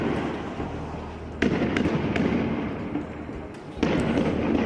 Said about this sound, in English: The sounds here of Israeli police firing tear gas at Palestinian protesters in Bethlehem today